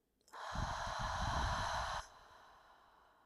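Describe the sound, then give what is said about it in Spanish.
A single slow exhale of breath during a guided meditation breathing exercise: a steady, soft breathy rush lasting under two seconds that stops abruptly and leaves faint background hiss. “Vuelve a inhalar una vez más. Y exhala.”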